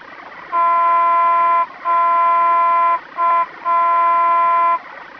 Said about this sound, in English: Trolley Gongs. Crossing Horn.